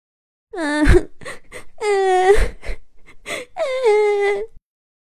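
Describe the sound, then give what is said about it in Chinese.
A voice acts out a small trash can character crying in a kitchen, with three drawn-out wailing sobs broken by short whimpers and gasps, heard alone. “可是在一片热闹当中，一个小小的垃圾桶正躲在厨房的一角哭呢。”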